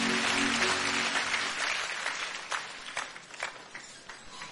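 An audience applauds in a church, dense clapping that starts full and gradually thins into scattered claps as it fades.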